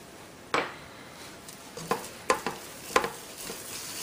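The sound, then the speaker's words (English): A utensil stirs a cooking mixture with cayenne pepper in a pan, with several sharp scraping clicks against the pan at an uneven pace over a faint sizzle. “Again, give it a good stir.”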